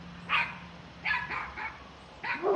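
A dog barks behind a fence. There are a few short, sharp yaps at uneven intervals, fairly faint, with no talk.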